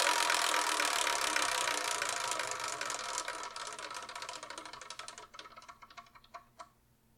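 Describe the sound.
Rapid ticking of a spinning selection wheel, the clicks blurring together at first, then slowing into distinct, spaced-out ticks before it comes to rest.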